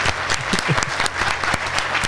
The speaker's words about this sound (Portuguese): Palmas para o Saco Cheio TV.